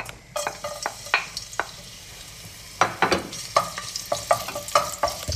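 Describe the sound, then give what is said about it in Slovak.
Sliced garlic fries in olive oil for a salmon linguine, with a low sizzle under many sharp scraping and stirring strokes of varying loudness; no one talks. “stručiky cesnaku nakrajané na jemné plátky, ktoré zľahka osmažíme na tomto oleji”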